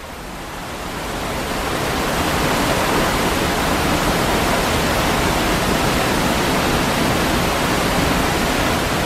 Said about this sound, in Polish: Dźwięk. Dźwięk tu konkretnie wodospadu.